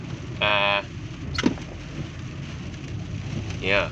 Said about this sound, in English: I am in the car again